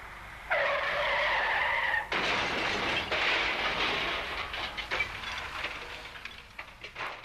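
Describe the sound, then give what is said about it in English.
Car tyres skid in a road crash, a long, loud, wailing screech followed by a sudden heavy impact, then a scatter of rattling and clattering debris that gradually thins out. “Another road crash, another statistic.”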